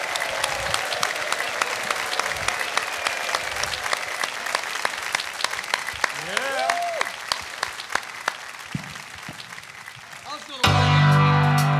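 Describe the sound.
A live show audience applauds to welcome a guest onto the stage, dense sustained clapping that runs on until music comes in near the end.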